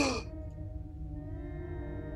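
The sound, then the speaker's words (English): A person imitates a big gasping breath: a short, breathy rush of air followed by a drawn-out, low voiced tone that holds steady. “Adam probably takes this big gasping breath. It's just like”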